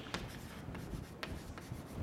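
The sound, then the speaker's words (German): Faint scratching of handwriting as angle brackets are added, with a few quick strokes rubbing against the writing surface, quiet and without talk. “Also ich schreibe hier nochmal ein Eckchen Klammern dazu.”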